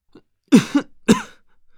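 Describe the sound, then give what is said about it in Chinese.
A person coughs with mouth and nose covered, choking on thick incense smoke: a few short, loud, throaty bursts in quick succession, with no talk. “捂着口鼻咳嗽了两声”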